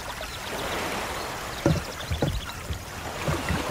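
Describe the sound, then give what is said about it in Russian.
Water lapping and sloshing as a boat drifts up to a wooden jetty with its engine cut, a gentle continuous wash broken by a few low, soft thuds. “Лодка подходит к деревянным мосткам.”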